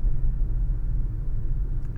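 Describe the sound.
Manual-transmission car engine idling in stop-and-go traffic, a steady low rumble with slight wavering in level and no other distinct sounds.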